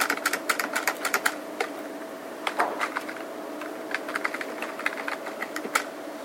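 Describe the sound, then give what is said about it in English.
Rapid typing on a computer keyboard: many crisp, irregular key clicks in uneven bursts and short pauses, with a faint steady hum underneath and no voices. “so if I type this again,”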